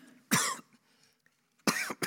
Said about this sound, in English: doctor told me about 20 minutes in, I'm going to start coughing, and there's nothing I can do about it